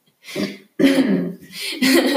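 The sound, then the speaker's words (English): Nervous coughing from an anxious person: a few hoarse, voiced coughs and throat-clearing sounds follow one another quickly, fairly loud, with no other sound. “I'm like really anxious. I think that's why I'm coughing.”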